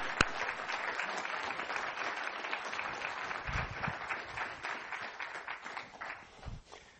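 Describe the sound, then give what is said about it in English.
Audience applause welcoming a guest onto a stage: sustained clapping from many hands that starts with a sharp click and eases slightly toward the end. “So let's give him a big hand.”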